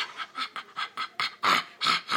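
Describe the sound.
A voice imitating a dog panting and straining on its lead at the vet's: a quick series of breathy, rhythmic huffs that grow louder toward the end.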